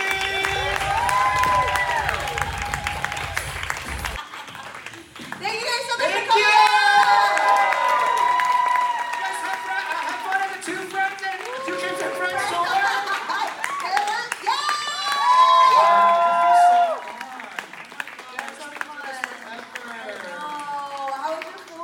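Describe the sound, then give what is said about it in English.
A live audience at a show in Philly claps and cheers, with dense clapping at the start followed by bursts of whoops and shouted cheers that rise and fall alongside people talking. “Put your hands together, please. Right now, like making a lot of noise.”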